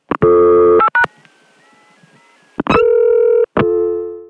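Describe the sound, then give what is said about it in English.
Telephone tones sound while two digits are dialed from a local dial tone until the call cuts through to an outgoing trunk: loud, steady, buzzy tone blocks broken by short gaps, with a faint wavering tone in the middle. “every time I call the Continent from my local dial tone, except in the middle of the night, you're going to hear a little bit of that while I'm dialing those two digits and until the cut through to the outgoing trunk”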